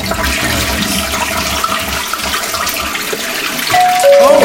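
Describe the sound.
A toilet flushing with a long, steady rush of water, joined near the end by a bell-like two-note chime like a doorbell.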